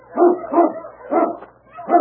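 Four barks from a large dog searching in the snow, fairly loud and mid-pitched, spaced unevenly with short pauses between them and no talking over them.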